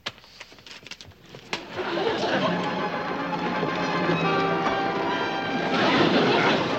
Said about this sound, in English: Who turned on that TV set?